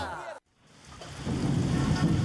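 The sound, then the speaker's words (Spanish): A rain and thunder sound effect swells in after a brief drop to silence: a dense, steady hiss of heavy rain builds and holds loudly. “La lluvia ha comenzado a empapar las calles de la ciudad.”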